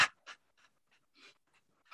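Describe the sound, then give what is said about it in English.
A person pants like a dog in quick, uneven, breathy puffs. A few puffs are sharp and loud and several are faint, with short silent gaps between them. “And now you're going to pant like a dog.”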